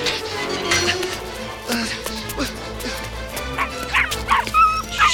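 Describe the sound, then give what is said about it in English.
Dalmatian puppies squeezing under a fence yip and whimper in many quick, high-pitched bursts, tumbling over one another across a dense, continuous background. “Dalmatian puppies squeeze under a fence.”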